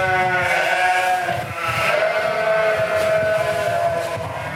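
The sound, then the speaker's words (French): Sheep bleat in a brand-new milking parlour with 24 stalls on each side. Several loud, overlapping bleats carry on throughout, over a steady, noisy background. “Donc, les brebis rentrent là-bas par le bout.”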